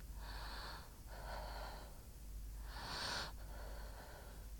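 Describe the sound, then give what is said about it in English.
A person's slow breathing: about four soft, airy breaths, each a drawn-out hiss of inhaling or exhaling separated by short pauses, faint and steady with no talking. “I'm listening to you breathe.”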